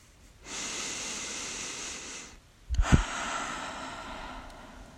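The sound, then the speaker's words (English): Deep breathing taken together as a group exercise: a long, airy inhale, then a pause, then a slower, rushing exhale with a brief low puff at its start. Fairly soft throughout, with no talking. “Take a deep breath. Let's do it together, guys. One more.”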